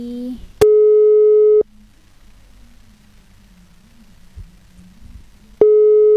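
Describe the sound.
A telephone line rings while a call tries to connect. Two steady, buzzy ring tones of about a second each are separated by a long gap of low background hum, with the second tone starting near the end.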